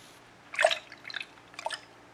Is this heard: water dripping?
yes